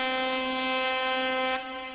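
An air horn blast opening a pop song: a single loud, buzzy, sustained tone rich in harmonics that holds steady for about a second and a half, then eases to a lower level.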